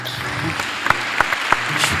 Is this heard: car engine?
no